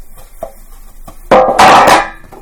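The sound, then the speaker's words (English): Mixing wet and dry baking ingredients together in a bowl during Thanksgiving baking: a few soft clicks, then a loud burst of scraping and clattering lasting under a second. “pour that into there and then mix that up with all the dry ingredients”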